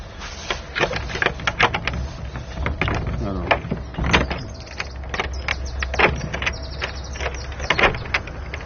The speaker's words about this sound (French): C'est une vraie serrure gasconne, il faut ouvrir à l'envers.